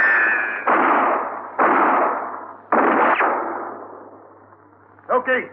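Gunfire in a 1959 western radio drama: a few loud, sharp shots, each trailing into a long ringing decay that fades slowly, followed by a short, bright burst near the end.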